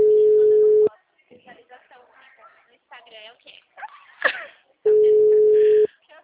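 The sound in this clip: Two steady ringback tones from a telephone call ringing on the line, each a mid-pitched buzz of about a second. People talk in the gap between the two rings.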